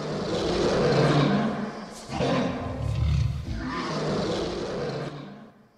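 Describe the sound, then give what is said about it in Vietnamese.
A tiger roars at night: a few loud, deep, rumbling roars follow one another in long throaty bursts, with brief pauses between them and no other sound. “bất ngờ ở bên ngoài có tiếng hổ gầm chấn động vang lên. Tiếng hổ gầm vang lên trong đêm”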